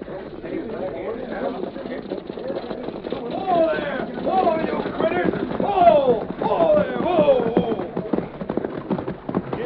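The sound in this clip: A horse-drawn stagecoach arrives in a radio drama sound effect, with a steady rapid clatter and rumble running throughout beneath voices.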